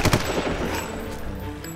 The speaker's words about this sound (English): It quickly became a shooting gallery. They came from all directions, behind buildings and out of windows. We kept firing, still unsure of what to do.